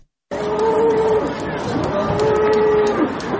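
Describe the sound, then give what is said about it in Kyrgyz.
Cattle moo at a livestock market set up in Istanbul for Kurban Bayram, two long, drawn-out lowing calls rising over a steady murmur of crowd chatter. “Бул курман айтта Стамбул шаарында 209 жерде атайын мал базары уюштурулган.”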